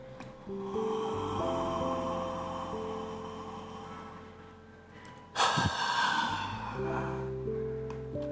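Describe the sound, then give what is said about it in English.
A deep breath in, then let out in a big sigh: a soft, airy inhale over gentle background music, then a sudden louder rush of exhaled breath. “A deep breath and let it out together in a big sigh.”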